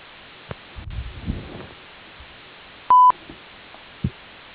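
A voicemail beep tone sounds once, a short, steady, clear pitch on a phone line, with faint rustling and handling noise before and after it.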